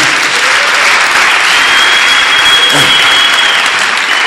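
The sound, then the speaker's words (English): Audience clapping during a church sermon, a loud, dense and steady wash of many hands that continues without a break for the whole stretch. “Oh, I wish your hand clap would be better.”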